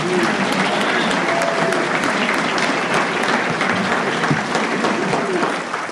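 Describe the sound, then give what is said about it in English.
An audience at a recovery meeting gives loud, sustained applause, a dense and steady patter of many hands clapping that eases slightly at the very end. “Wasn't she just on fire? Give her another hand.”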